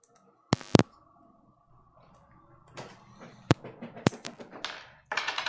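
Clicks and taps as a £2 coin pries a battery out. A few sharp snaps come first, then a run of quieter irregular clicks and a burst of rapid ticking at the end.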